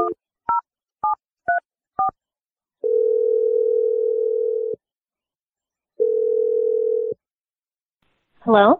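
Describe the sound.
Five quick telephone keypad tones are dialed, then two long ringing tones play on the line before a voice briefly answers at the end.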